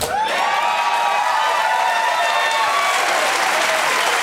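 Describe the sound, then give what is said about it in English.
Loud, steady applause used as a sound effect to mark a Billy Dee Williams quote-of-the-week segment. It swells almost at once and holds continuously at full volume for about four seconds, a dense wash of many clapping hands. “Hear that sound? Ladies and gentlemen, that is the sound of a of a Billy Dee quote of the week.”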